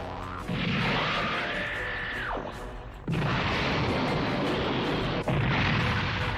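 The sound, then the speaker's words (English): A sci-fi pulse rifle powering up and firing in a game: a high whine climbs, holds steady and drops away over a rumbling roar, then two loud, sustained blasts of broad, crackling noise follow. “You guys see the Cyclone Pulse Rifle powering up.”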